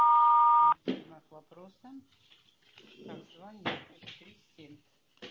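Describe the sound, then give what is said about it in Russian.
Answering machine beep before a message is recorded: one loud, steady electronic tone lasting under a second, followed by talking. “Вас приветствует автоответчик. Оставьте сообщение после звукового сигнала.”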